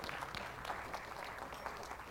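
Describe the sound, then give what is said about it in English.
Church audience clapping their hands in praise, a faint but steady patter of many claps at an even level throughout. “Give God a hand clap today.”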